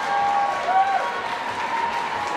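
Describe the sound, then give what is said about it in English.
Concert crowd applauding and cheering at an encore, a thick wash of clapping and crowd noise that stays loud and steady, with a few sustained tones running above it. “Listen to the crowd as this thing gets dropped.”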